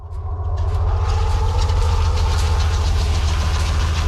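The engine of a Swedish tracked vehicle rumbles in the snowy Norwegian mountains in deep winter cold, swelling within the first half second into a loud, steady, low drone that holds without a break.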